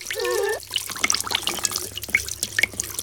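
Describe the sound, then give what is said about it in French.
Water running from a hair salon sink onto hair, a continuous soft splashing trickle broken by scattered drips and small splatters throughout. “L'eau coule doucement sur les cheveux.”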